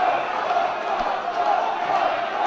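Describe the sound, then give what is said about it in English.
A crowd at a Trump rally shouts and yells to drown out a protester. The loud, continuous wall of massed voices holds steady for the whole moment. “And there's a protester who gets shouted down”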